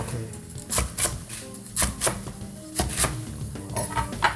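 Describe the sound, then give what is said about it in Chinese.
A kitchen knife slices napa cabbage into pieces on a board. The crisp cutting strokes often come in quick pairs at an uneven pace, moderately loud, with no talk. “白菜我们就直接切片就好了。”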